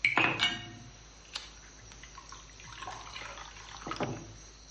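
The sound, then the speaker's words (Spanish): A waiter pours wine into a glass in a 1985 film scene: a brief glassy clink, then a faint, soft liquid trickle that runs on quietly. “El mozo sirve vino a Denis.”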